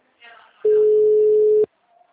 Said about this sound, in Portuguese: A ligação caída.